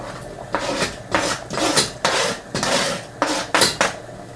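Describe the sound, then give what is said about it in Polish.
A spoon stirs canned tomato sauce gently in a pan, making many rhythmic clinks and scrapes against the metal, fairly loud and with no talk. “Mieszam delikatnie. Zmniejszam płomień, tak aby sos mógł sobie wolniuteńko dochodzić.”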